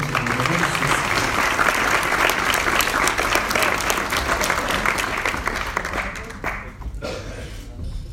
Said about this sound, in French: si vous pouvez les applaudir.